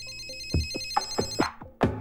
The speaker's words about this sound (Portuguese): Gente, não acredito. Tá chamando. Então atende.